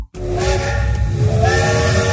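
A steam train whistle blows as one sustained, harmonic-rich tone over a constant hiss of steam. It stays loud and steady for about two seconds after a brief gap at the start.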